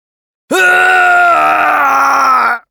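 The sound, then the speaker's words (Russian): A man screams in pain and hatred as jaws crush through his armour and bones: one loud, sustained, strained cry of about two seconds that jumps up sharply at the onset, holds steady, then cuts off. “Кричал он от боли и ненависти”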